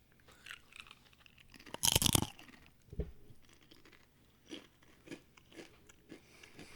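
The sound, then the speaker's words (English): Crunching on a pumpkin seed tortilla chip, with one loud, sharp bite-crunch followed by a few softer chewing crunches at an irregular pace. “So I'm going to try our other item, which is a pumpkin seed tortilla chip.”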